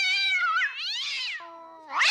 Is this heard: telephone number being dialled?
no